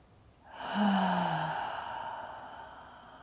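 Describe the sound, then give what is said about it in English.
A deep breath drawn in through the nose and released out through the mouth, heard as one long exhale that starts with a low voiced sigh and trails off softly, with no talking. “Taking a deep breath in through the nose. And out through the mouth.”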